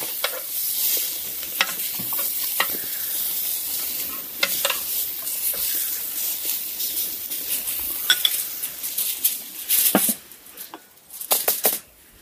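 Meat sizzling as it fries in a pan, a steady, loud crackling hiss throughout, broken by scattered clicks and clatters of utensils.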